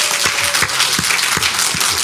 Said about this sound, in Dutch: Mag ik een applaus voor Jerome Karsens?